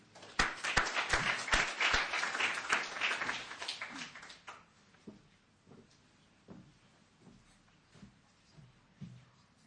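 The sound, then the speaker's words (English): An audience applauds to welcome a speaker to the stage. A burst of brisk clapping lasts about four seconds, then dies down to a few faint, scattered claps and knocks. “Let's put our hands together to welcome Carol.”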